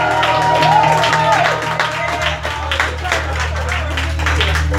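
A church audience applauds to welcome a new member who completed her new members class. Steady clapping runs throughout over a sustained low tone.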